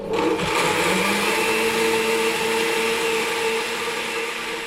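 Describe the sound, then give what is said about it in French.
A blender whirs steadily, blending squash seeds and pulp with maple syrup and cinnamon, its loud, even motor drone holding throughout with only a slight drop near the end. “Je les mets dans le mixeur. Une cuillère à café de sirop d'érable. On va mettre une cuillère à café de cannelle. Et c'est déjà prêt, il n'y a plus qu'à mixer. Attention les oreilles.”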